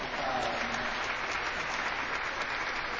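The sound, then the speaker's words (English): A church audience claps together, a steady, even patter of many hands that stays moderately loud and continuous for three seconds with no talk over it. “I think we should clap for you all.”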